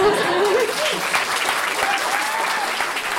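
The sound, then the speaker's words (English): Applause from a group of people for a mother, a steady dense clatter of clapping throughout, with a voice briefly audible over it. “a round of applause for Mum”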